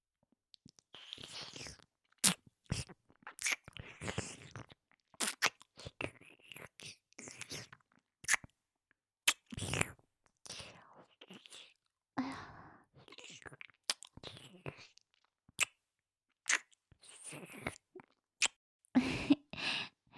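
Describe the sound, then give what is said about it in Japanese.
Many wet mouth sounds of playful biting, licking and chewing in an intimate role-play. Sharp smacks and clicks come in irregular bursts, mixed with soft whispering and breathy sighs. “ダーリンの体、いつ見てもすってき。おいしそうだから食べちゃおう。”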